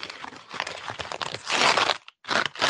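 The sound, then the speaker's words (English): A paper envelope is torn open with crinkling, crunching rustles. The rustles come in a few dense bursts, the loudest near the middle, with a brief silent gap just before the end. “Okay, let's open that envelope up.”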